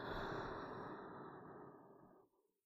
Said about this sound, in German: Lass uns gemeinsam 3 tiefe Atemzüge nehmen. Atme durch die Nase ein und durch den Mund wieder aus.